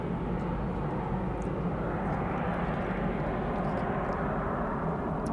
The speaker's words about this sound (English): got some late planes landing here.